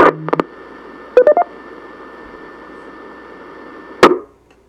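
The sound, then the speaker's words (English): DTMF tones sent over an amateur radio link to reset a repeater: two short groups of quick beeping key tones over a steady radio hiss, then a brief sharp burst near the end. “Let me reset the repeater.”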